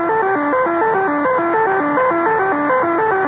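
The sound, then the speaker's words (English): Wartime Axis radio jamming heard on an ordinary radio set in England. A loud, continuous electronic tone steps down a staircase of pitches, then jumps back up, repeating the cycle over and over. “Jamming, by the way, is an Axis monopoly and can be heard all around the dial of an ordinary radio set in England. It sounds like this.”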